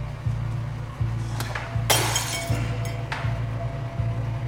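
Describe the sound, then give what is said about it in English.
Glass knocked off a table shatters on the ground in one sharp, bright crash, heard over a steady low thumping pulse that repeats evenly throughout. “He bumps into a glass, knocking it to the ground.”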